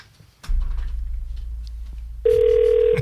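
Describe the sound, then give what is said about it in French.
A telephone line rings, its steady electronic tone starting partway through after a low rumble and click. The ringing stays loud and continuous to the end. “C'est genre, Ginette, ça sonne!”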